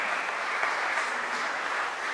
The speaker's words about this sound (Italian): Padre Giuseppe Damigella, che accogliamo con un applauso, lo ringraziamo.